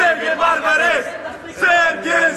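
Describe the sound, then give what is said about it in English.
A crowd of Bosnian fans at Lambert Airport in St. Louis chants and cheers for their national team, with loud group shouts rising in a few rhythmic bursts of voices. “A crowd of St. Louis Bosnians turned out at Lambert Airport today to cheer their national team off the plane”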